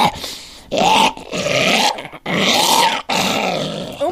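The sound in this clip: A voice imitates a burnt zombie groaning, producing a few long, rasping, guttural growls separated by short breaks and delivered loud and alone.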